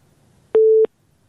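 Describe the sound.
A telephone busy tone sounds after a call is cut off: a single short, steady electronic beep at a fixed pitch, clear against near silence.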